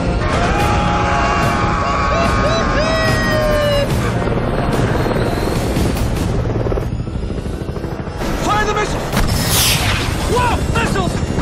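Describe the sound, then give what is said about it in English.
Missiles fire and explode in an air-to-air combat scene: loud booms and blasts crash over a constant roaring engine, while excited voices shout throughout. “Whoa! Missiles! Come on, come on!”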